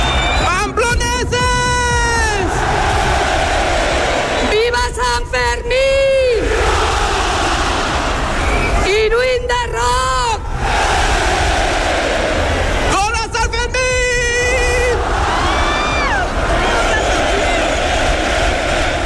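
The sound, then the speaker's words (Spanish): A huge crowd roars and chants to open the San Fermín festival in Pamplona, a loud, unbroken wall of voices that swells into repeated surges of shouting. “Es el sonido con el que Pamplona ha dado inicio a estos 9 días de fiesta Sanfermines 2026.”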